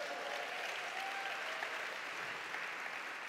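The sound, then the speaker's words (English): Steady applause from a church audience at an Easter Sunday service, a dense, even patter of clapping that holds at the same moderate level throughout, with no voices standing out. “Come on, make some noise if you're believing for something.”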